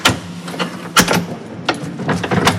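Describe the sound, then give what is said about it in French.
An old door of the Romanesque chapel of Saint-Martin is opened, with a few sharp latch clicks and knocks and some scraping between them. The sounds are fairly loud, with no voices. “Alors, il est recommandé de ne pas ouvrir souvent la porte parce qu'il y a des chauves-souris qui sont là, mais on peut regarder.”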